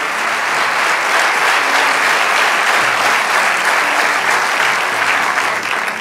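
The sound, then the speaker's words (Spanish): Sustained applause from a church audience during a sermon: a dense, steady wash of many hands clapping at an even, fairly loud level for the whole stretch, with no voices over it. “Vamos, dale ese aplauso al Rey de Reyes.”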